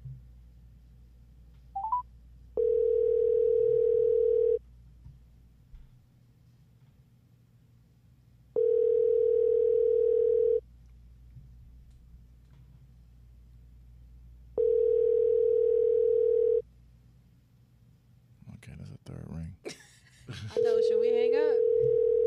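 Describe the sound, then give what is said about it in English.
Ringback tone of an outgoing phone call, a steady buzzing tone in three full two-second rings spaced about six seconds apart and a fourth cut short, with a brief beep at the start and voices talking between rings. “Third ring, they don't answer. All right, we'll see if it goes to voicemail.”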